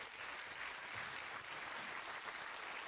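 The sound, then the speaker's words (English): Congregation applause for the worship team at a church service, an even, dense clatter of many hands clapping that holds steady for the whole stretch. “give these guys a great hand.”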